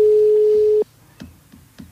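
A telephone ring tone sounds as one steady, pure beep lasting under a second, then cuts off, leaving faint light clicks and quiet.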